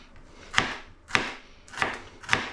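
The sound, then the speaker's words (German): A knife cuts food into thin slices on a board. Four crisp chopping strikes land at a steady, unhurried pace, each with a short woody knock and nothing else heard. “entspannt dünne Scheibchen runterschneiden. So. Und die letzte Hälfte auch wieder oben, unten cutten.”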